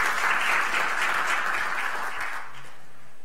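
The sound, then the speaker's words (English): A church audience claps hands together in welcome during a morning service. The applause is steady and moderately loud, then trails off and stops after about two and a half seconds. “Can we just put our hands together and welcome everyone watching this morning?”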